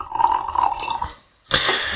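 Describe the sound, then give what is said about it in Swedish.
Coffee pours into a cup with a splashy, watery trickle in two stretches separated by a short silent pause. The second burst is brighter and louder. “Nu hällde jag upp lite mer kaffe på ett sätt som inte kommer gå för producenten att klippa bort.”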